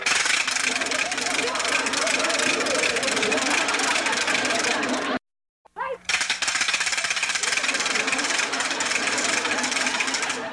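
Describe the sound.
A wooden ratchet noisemaker is spun hard, giving a loud, dense, continuous clatter of rapid clicks. The rattling stops abruptly for under a second midway, then resumes just as loud.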